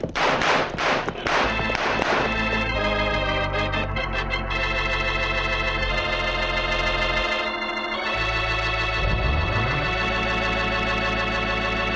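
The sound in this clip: Gunfire in a western radio drama: several sharp, loud shots crack in quick succession at the start, then a loud orchestral music sting takes over and holds to the end.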